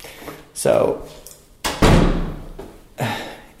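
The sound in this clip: A rectory door in a parish house shuts and is locked, producing a few heavy wooden thuds and clunks with short gaps between them, ending in a final solid knock.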